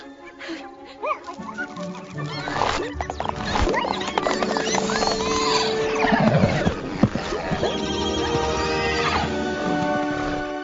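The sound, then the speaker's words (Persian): Whinnying of four white draft horses, several loud, high neighs with rising and falling pitch that overlap one another, with no talk. “چهار اسب باری سفید.”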